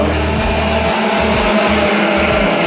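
Racing kart engines at a national karting championship race track: a loud, steady, buzzing engine drone that carries on without a break.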